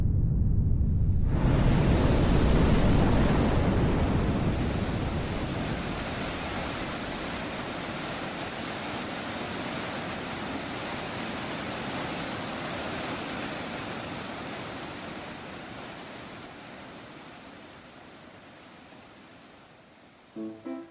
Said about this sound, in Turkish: Ülkenin suyunu kesen yaratık olmadığı için su dağdan aşağı akmaya başlamış.